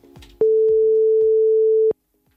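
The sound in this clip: One long ringback tone sounds on a telephone line while someone is being called, a steady mid-pitched beep lasting about one and a half seconds. Faint clicks come before and after it, and no one talks.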